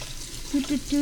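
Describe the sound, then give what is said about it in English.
Tap water runs in a brief, steady splashing hiss as a swizzle stick is rinsed beneath it, with a voice briefly audible. “Gonna rinse off my swizzle stick.”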